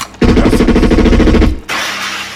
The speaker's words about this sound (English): You shot my test subject.